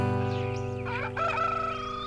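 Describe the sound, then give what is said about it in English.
A rooster crows once over steady sustained instrumental music, its harsh, wavering call standing out briefly in the middle before the music carries on. “Hear that rooster crowing.”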